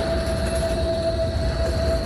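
Tram squealing on its rails: a steady, thin high-pitched whine held over a continuous low rolling rumble for about two seconds, fairly loud and unbroken.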